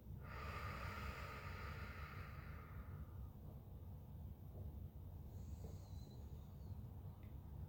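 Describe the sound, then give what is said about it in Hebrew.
Slow breathing during a guided relaxation exercise, one long airy breath that trails off gradually over about three seconds, followed by near silence with only a faint low hum. “נעשה את זה עוד 4 פעמים. שאיפה מהאף, נשיפה ארוכה ואיטית מהפה.”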